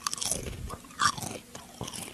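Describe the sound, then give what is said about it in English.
Lay's Garden Tomato and Basil potato chips bitten and chewed, giving a few sharp, crisp crunches with quieter chewing between them and no talk. “this is the new Lay's Garden Tomato and Basil. If I eat this on the air, do you think they'll give you sponsorship?”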